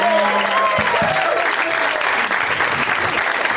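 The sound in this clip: Audience applause at a live show: dense, steady clapping that fills the whole clip at an even level, with a voice heard briefly over the start.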